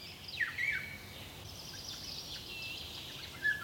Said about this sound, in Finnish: Ilmeisesti pajulintu huutelee kutsuääntä.